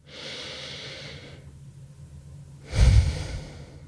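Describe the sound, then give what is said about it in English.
A deep breath: a long, soft, airy inhale, then a pause, then a stronger, fuller exhale with a low rushing edge. No talk is heard. “So take a moment now, pause, take a deep breath.”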